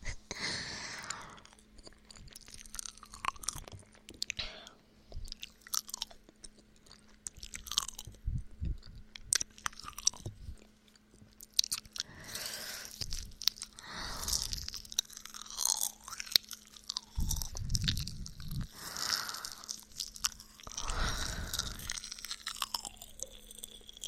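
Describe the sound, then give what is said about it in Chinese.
Crunchy chewing of homemade pastries: many crisp bites and mouthfuls come in an uneven rhythm over about twenty-four seconds, some louder crunches standing out. No one speaks. “小哥，要不要尝尝你做的糕点啊？”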